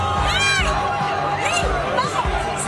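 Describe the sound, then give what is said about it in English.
Crowd cheering in Gibraltar as the border wall with Spain comes down, a dense, continuous roar of many voices with sharp rising shouts breaking out above the babble. “cheering as the border wall with Spain comes down after years of negotiations”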